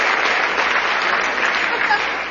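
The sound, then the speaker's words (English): Audience applause, with dense, steady clapping that fills the whole clip at an even, fairly loud level and tails off slightly at the end. “Folks, I'm getting 6% applause on things that deserve 120.”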